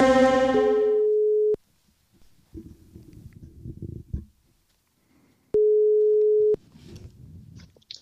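Telephone ringback tone from a call that goes unanswered: two steady one-second beeps at a low-mid pitch, separated by a long gap filled with faint rustling.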